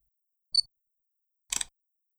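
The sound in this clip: A camera takes a photo: a short, high electronic chirp comes first, then after a pause a quick rattling shutter click made of several tight ticks, both fairly faint against silence.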